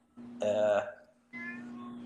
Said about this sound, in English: I hear a cat in the background, and I don't know what I should say about the cat in the background.